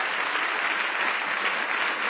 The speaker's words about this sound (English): Give our Lord Jesus a big hand clap.